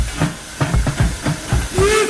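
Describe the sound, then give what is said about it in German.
A museum steam train hisses and chuffs in a steady rhythm of sharp steam bursts, loud and clear, with no talk. “Zwischen den einzelnen Museumsbereichen können Sie entweder einen kleinen Spaziergang machen oder standesgemäß mit dem Museumsexpress hin und her fahren.”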